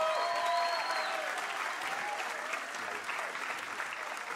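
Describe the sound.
A church audience applauds a pastor as he is welcomed to speak. The clapping is a steady, dense wash that fades slightly over its length.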